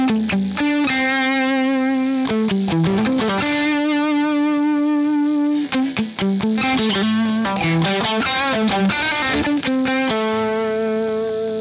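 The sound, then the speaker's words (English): Electric guitar with single-coil pickups, picked lightly for a lead solo, plays a distorted, effects-laden melodic line alone. Sustained singing notes alternate with quick bursts of shorter picked notes at a steady, fairly loud level. “But now watch, what I'm gonna do is instead of picking so hard, I'm gonna lay back on my guitar pick.”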